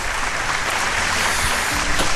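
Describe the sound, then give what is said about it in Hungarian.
Audience applause: dense, even clapping from a crowd, sustained at a steady level without a break. “mekkora tapsot kaptak”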